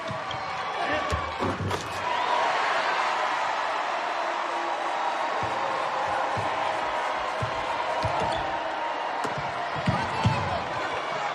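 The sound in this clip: Crowd noise fills a basketball game as a slam dunk and a rebound are played, with a couple of sharp thumps early on and scattered ball bounces under the steady murmur of spectators.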